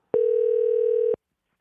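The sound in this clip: One steady telephone ringback tone sounds while a call is placed. It is a flat, even buzzing hum lasting about a second, heard alone with silence before and after.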